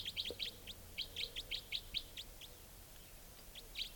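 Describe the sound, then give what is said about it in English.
A wild bird gives a rapid type 4 call series, many short, high chirps in quick clustered bursts with brief gaps between them. The calls are fairly faint over a low, steady background. “Wild bird. Doing a rapid type 4 series.”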